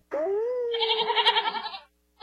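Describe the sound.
A sheep in a flock gives one long bleat that starts steady and then wavers in a quick tremolo before cutting off. The start of another call comes in right at the end.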